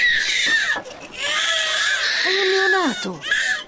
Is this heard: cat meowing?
no

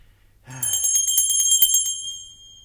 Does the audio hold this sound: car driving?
no

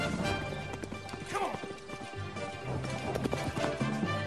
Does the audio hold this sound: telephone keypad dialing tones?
no

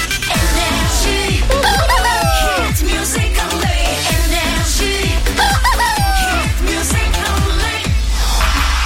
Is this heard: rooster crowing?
yes

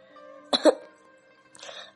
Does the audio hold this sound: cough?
yes

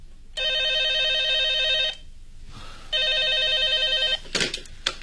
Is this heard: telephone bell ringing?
yes

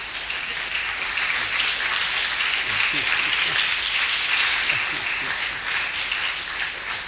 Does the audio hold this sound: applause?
yes

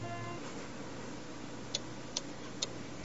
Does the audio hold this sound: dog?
no

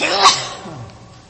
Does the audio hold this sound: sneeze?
yes

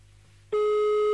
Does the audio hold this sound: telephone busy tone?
yes

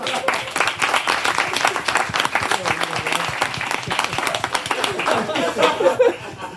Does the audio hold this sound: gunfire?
no

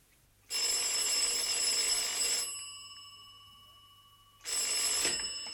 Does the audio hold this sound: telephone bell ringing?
yes

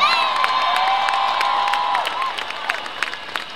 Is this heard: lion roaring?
no

